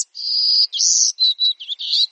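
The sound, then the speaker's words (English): A golden-cheeked warbler, a small songbird of central Texas, sings on a summer day: high, thin, buzzy phrases, the first long and the following ones shorter and choppier, clear and alone. “A golden-cheeked warbler, to be exact. He's smaller than a sparrow, with a white belly, yellow face, and black throat.”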